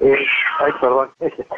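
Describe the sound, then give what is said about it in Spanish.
A female Bengal cat meows: one long, drawn-out wavering call, then a few shorter, clipped meows after a brief gap, loud and close. “Tengo una gata bengalí, que es la que acaba de hacer el ruido.”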